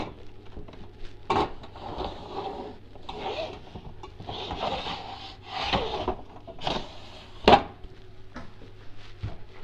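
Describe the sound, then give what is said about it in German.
A wooden cutting board is picked up and handled while preparing food for cooking. Faint rubbing and scraping of wood runs throughout, broken by a few sharper knocks and clacks, with one distinct loud clack near the end. “Dann nehme ich mir ein Schneidbrett.”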